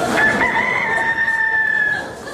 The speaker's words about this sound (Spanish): el veterinario cree que se está convirtiendo en un gallo.